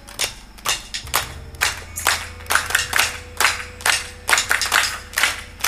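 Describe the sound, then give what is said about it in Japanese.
An audience at a live concert claps hands along to a song, keeping a steady, even rhythm of loud, sharp claps over faint music. “これはね、みんなに手拍子してもらいたいな。”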